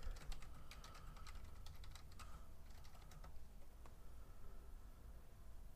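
Someone types a search on a computer keyboard: many quick, light key clicks in an uneven rhythm, faint against a soft hiss, thinning out toward the end.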